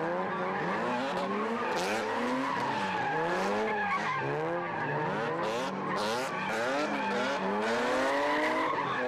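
Race car tires skidding and squealing on a new racing track at Tehran's Azadi Sports Complex, a loud continuous screech whose pitch wavers up and down throughout.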